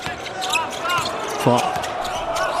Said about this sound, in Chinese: 冯奥运球找节奏，投一个短了。